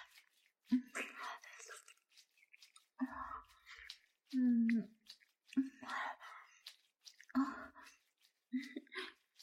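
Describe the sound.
Soft, wet chewing of a fried chicken cutlet, quiet irregular bursts of biting and mashing separated by short pauses, with faint breathy murmurs between them.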